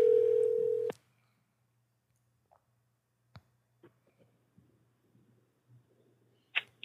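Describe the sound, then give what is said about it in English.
A phone call rings out with a single steady ringback tone lasting about a second while waiting for pickup. Near-silence follows, broken by a few faint clicks and small knocks. “I'm going to call her in. Let's see if she picks up.”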